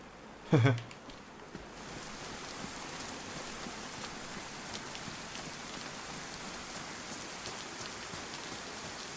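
Heavy rain pouring down in a steady, dense hiss and patter that continues throughout, preceded by a brief, louder thump near the start.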